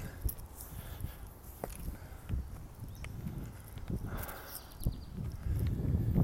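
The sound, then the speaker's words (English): Footsteps crunch along an outdoor path as someone walks up a hill in Elysian Park, Los Angeles, with a puppy. Many uneven steps sound over a steady low rumble, with a few sharper, louder impacts. “Walking up the hill as usual, Elysian Park in Los Angeles with Zizix, the puppy weppy.”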